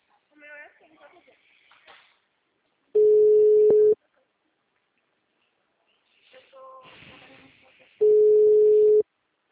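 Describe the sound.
A softphone call rings out with two long, steady low tones of about a second each, separated by a few seconds. People talk before and between the tones.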